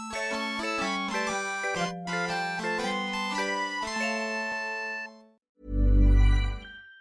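A short musical jingle: a bright, bouncy melody of bell-like, plucked notes over a steady low line for about five seconds, then a brief gap and a loud, deep rumbling hit to close.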